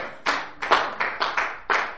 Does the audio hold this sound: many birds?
no